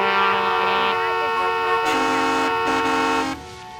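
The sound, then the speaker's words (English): Truck horns blare at a trucker protest in Canada, several loud, sustained tones overlapping and shifting pitch before cutting down near the end. “The horns were drowning you out. We couldn't hear anything. Guys, could you please stop honking?”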